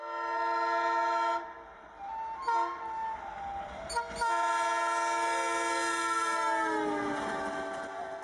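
A train horn sounds on an Assam-bound train leaving Malda station: a loud, sustained multi-note chord that dips briefly a few times, resumes, and slides slightly lower near the end, with no talk.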